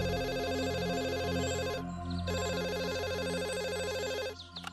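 A telephone rings with a bright, rapidly warbling electronic tone. It pauses briefly in the middle, resumes, then cuts off just before the end.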